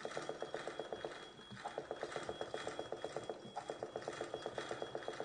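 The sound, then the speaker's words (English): A looping magical sound from collectible keys in a video game: a fast, regular train of bright pulses that repeats steadily throughout at a low level. “So that noise you can hear to your right, that is the magical keys which you need to collect in order to proceed.”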